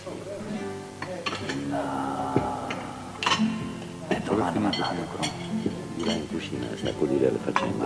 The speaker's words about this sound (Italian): Direi da apparecchiare, no? Apparecchiamo.